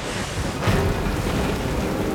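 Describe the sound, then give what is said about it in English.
Rain pouring down, a loud, constant hiss of falling drops that fills the whole clip with a low rumbling undertone. “Then it began to rain.”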